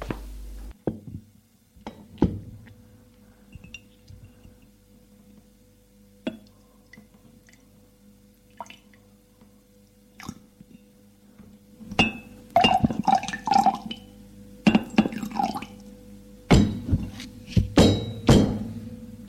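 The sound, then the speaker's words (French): Clinks and trickles of a drink poured from a bottle into a glass, beginning with sparse light taps and drips, then building into a denser run of louder clinks and splashes toward the end. “Elle s'est servie et boit.”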